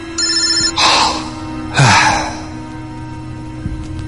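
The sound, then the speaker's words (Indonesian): A mobile phone ringtone signals an incoming call from an unknown number at night, a steady tonal ring that runs throughout. Two loud, breathy bursts cut across it. “Ada panggilan masuk. Kulihat di handphoneku ada nomor tidak dikenal.”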